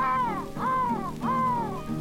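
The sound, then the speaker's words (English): Three harsh, drawn-out caws from a crow, evenly spaced and loud, each arching slightly in pitch over a steady low background. “Saw the old crow and the old crow call.”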